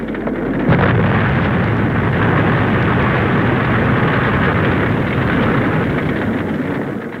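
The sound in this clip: Explosions of hijacked jet airliners vanishing into fire, black smoke and sand: a loud, dense, sustained roar that swells sharply within the first second and then rumbles on steadily without distinct separate blasts.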